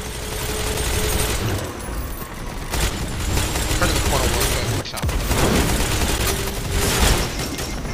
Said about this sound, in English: Dang it, I just got grenaded.